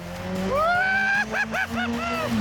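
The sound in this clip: A powerful car engine accelerates hard, its note climbing in a long rising sweep, followed by a few quick rev bursts that rise and fall in pitch.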